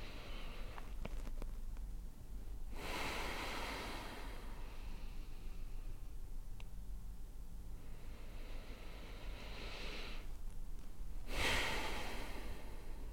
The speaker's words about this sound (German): Dann atme doch einfach nochmal 2-3 Mal tief ein und aus. Nochmal tief einatmen.